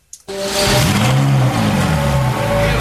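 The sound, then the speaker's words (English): Ferrari supercar engine bursting into life after a short starter sound, then revving hard with a loud roar whose pitch wavers up and down for a couple of seconds. “so that is the sound of a Ferrari engine”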